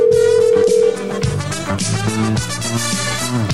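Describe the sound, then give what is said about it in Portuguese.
A telephone tone as a call is placed: one steady, mid-pitched tone holds for under a second, then loud music with shifting notes takes over. “Eu vou ligar pra ele aqui, porque ele acabou de falar aqui.”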